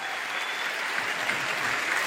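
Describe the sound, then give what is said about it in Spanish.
Applause from a church audience, a dense, even wash of many hands clapping that holds at a steady level from start to finish. “Damos un aplauso grande al Señor por Marcos, sí, por hacer el esfuerzo con su rodilla.”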